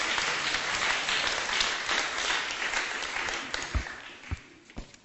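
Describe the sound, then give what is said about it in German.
Church audience applauding in praise of Jesus: a loud, dense burst of clapping that gradually thins out and ends with a few scattered single claps. “Give Jesus praise. Lasst uns ihm einen Applaus geben.”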